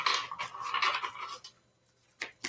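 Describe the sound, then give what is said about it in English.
A pile of oracle cards rustles and slides in a continuous papery shuffle as it is handled and spilled, then fades to near quiet, broken by two short slaps. “Whoa, okay. Ah, there we go. About to dump the whole pile of cards.”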